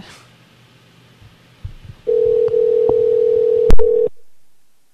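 An outgoing telephone call rings out as a single steady ringback tone of about two seconds, with a sharp click near its end, then cuts off into silence after a faint low hum.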